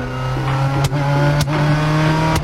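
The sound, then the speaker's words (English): Engine drone of a manual-transmission car driven by a beginner, a loud steady hum broken by a few brief dips and jolts. “I just learned how to ride stick. Want to go for a ride?”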